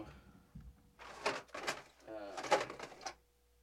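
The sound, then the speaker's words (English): Drawers being rooted through in a search for a capture card, heard as a few bursts of clattering, knocking and scraping with short pauses between them. “I'm rooting through drawers trying to find a capture card to”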